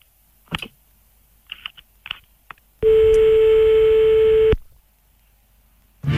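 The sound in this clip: A telephone line tone on a hand-dialed call, heard as a loud, steady, unbroken tone lasting a couple of seconds after a few scattered faint clicks and taps. No voices.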